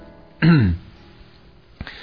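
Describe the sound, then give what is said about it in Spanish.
A man gives one short, embarrassed cough, a low throaty burst that stands out against near silence. “Blanche suspira y Mitch tose cohibido.”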